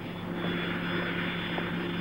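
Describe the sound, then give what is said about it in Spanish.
Airplane engine droning in flight, a steady, faint hum with sustained tonal lines over a broad, even rush and no breaks. “recuerda su viaje en avión”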